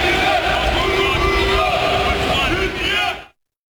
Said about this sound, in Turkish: İdmanı izleyen yaklaşık 50 taraftar yaptıkları tezahüratlarla milli futbolculara desteğini gösterdi.